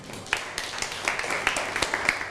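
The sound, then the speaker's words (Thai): A classroom of students applauds a classmate who has just answered and sat down, producing many quick, irregular hand claps at a steady, moderately loud level throughout. “นั่งลงได้ครับปรบมือให้กับเพื่อน”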